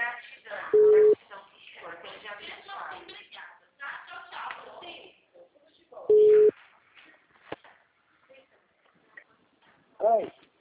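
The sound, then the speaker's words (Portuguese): Telephone tone after a dropped phone call: two short, steady beeps of the same pitch several seconds apart, with Portuguese speech between them. “caiu a ligação? Caiu.”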